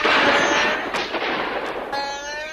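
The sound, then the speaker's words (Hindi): Gunfire from soldiers' guns, a dense, loud burst of rapid crackling shots that blurs into a continuous roar, with sustained tonal sounds running through it. “सिपाहियों ने गोलियों की भयानक बरसात कर दी।”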